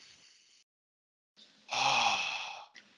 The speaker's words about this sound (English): I'm going to take a breath right now.